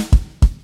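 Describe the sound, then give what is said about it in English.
A kick drum triplet figure played together with snare: three punchy, deep drum strikes at an even, quick pace with short decays, heard alone. “The change that he makes for the bridge is he begins playing an extra kick drum note, which adds a triplet. So in the kick, he's playing a triplet figure.”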